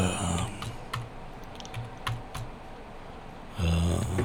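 Computer keyboard typing as a written reply to a listener is tapped out: a few sparse, sharp key clicks over a low steady hum, with no talking.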